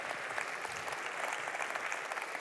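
Audience applause in church as a guest is welcomed: thick, continuous clapping at an even, moderate level, with a few slightly louder claps standing out through the wash.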